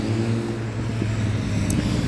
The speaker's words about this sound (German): Danke, dass dieser Motorradfahrer meine Aufnahme jetzt zerstört hat.